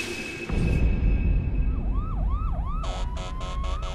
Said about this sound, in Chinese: 此刻远处隐隐地传来了警车的声音